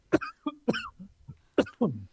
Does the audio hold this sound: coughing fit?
yes